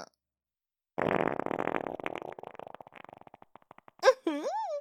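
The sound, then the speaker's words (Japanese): A long rasping fart, a loud sputtering burst that breaks into slower flapping pulses and fades over about three seconds, followed by a woman's voice speaking. “おなら出ちゃった。”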